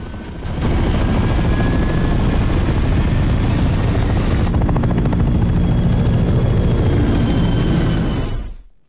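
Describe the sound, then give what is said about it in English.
A presidential helicopter takes off with a loud, steady rotor roar and turbine whine that holds for about eight seconds, then drops away at the end. “The president's chopper scrambles into flight.”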